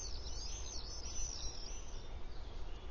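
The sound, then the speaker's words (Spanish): Common swifts give faint, high-pitched screeching calls that waver above a steady low rumble, the thin squeals running on and off through the short stretch. “Los vencejos solo se quedan 3 meses. Luego se recuperan para prepararse para volar hacia África y llenar el aire por última vez con sus típicas llamadas.”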